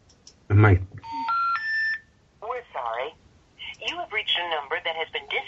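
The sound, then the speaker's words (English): Dialing tones from a landline telephone on speakerphone sound as a short run of steady electronic beeps after a brief opening blip, followed by a voice talking. “All right, I'm letting it dial, and then I'm putting on speaker.”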